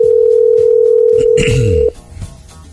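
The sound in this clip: A telephone ringing tone on a call abroad, with an unusual ring: one loud, steady, even-pitched tone holds for almost two seconds, then cuts off abruptly into faint low noise.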